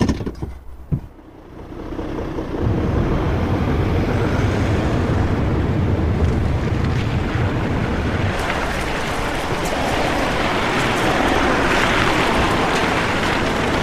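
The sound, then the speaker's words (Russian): A car pulls away and drives on along a dirt road: a steady, broad rumble of engine and road noise that swells after a brief quieter start and then holds loud and even throughout. “Трогается, едет дальше по грунтовой дороге.”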